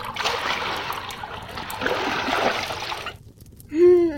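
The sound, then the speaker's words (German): Heated water splashes steadily as it is poured into a large wooden bathtub in a chamber beside a kitchen, a continuous rushing pour lasting about three seconds before it stops. “Danach erwärmten sie Wasser auf der Kochstelle in der Küche und füllten damit die Holzwanne.”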